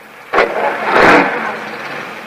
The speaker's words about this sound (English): The last of the workmen leaves in his car. A cloud of dust drifts over Jim's lone convertible.